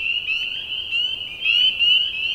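Frog croaking at a pond: a steady, high-pitched pulsing trill that keeps going for the whole clip at fairly even loudness, with no voices.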